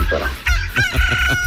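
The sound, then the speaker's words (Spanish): A rooster crows loudly in one long, strained harmonic call that holds a steady pitch, rising out of a low rumbling background. “Todavía está dormido mi gallo, todo está dormido el gallito. Ya levante ese gallo, son 5:25.”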